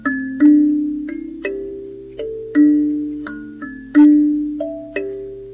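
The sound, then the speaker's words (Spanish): Plucked notes from a golden lyre in a slow melodic run of several tones at shifting pitches, each struck clearly and then ringing out and fading before the next. “Entonces Orfeo tocaba su lira, mire.”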